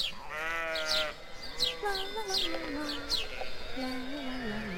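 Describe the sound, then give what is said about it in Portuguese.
A flock of sheep grazing in a meadow bleat repeatedly, with several overlapping wavering calls of varying pitch that continue throughout. “Um dia, durante um dos seus passeios, a princesa passou por um prado onde pastava um rebanho.”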